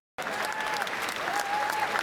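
Applause at a meeting of Labour Party lawmakers: a dense, even wash of many hands clapping that starts abruptly and holds at a steady level.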